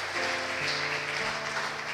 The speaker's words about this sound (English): I don't know if you get nervous or not, but sometimes clapping helps.